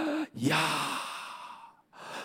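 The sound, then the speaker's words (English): A single long breathy exhale from a person, starting strongly and fading gradually over more than a second, quiet and unvoiced, with faint breath sounds just before and after. “every time you and I breathe, exhale”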